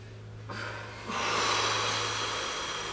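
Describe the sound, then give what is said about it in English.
A powerful exhale during a guided breathwork session: a forceful rush of breath that starts softly, swells suddenly into a loud, broad hiss and holds steadily for a couple of seconds. “whenever you need to, powerfully exhale it out into the room.”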